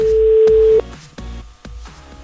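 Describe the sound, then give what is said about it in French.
A telephone rings on an outgoing call to a listener in northern France: one steady, single-pitch tone held just under a second, then cut off and followed by a few faint clicks. “Allez, c'est parti, on appelle notre auditeur. qui s'appelle Francky, il vit à vaux dans le Nord. Attention, ça sonne.”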